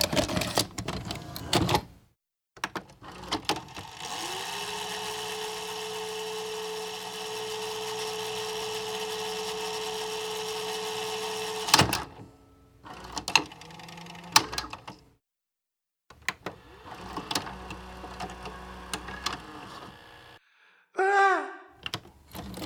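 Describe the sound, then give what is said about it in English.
A VCR starting up: a burst of mechanical clicks gives way to a steady motor whir held for several seconds, followed by clunks, rattles and a short squeaky burst near the end. “Initiating VCR.”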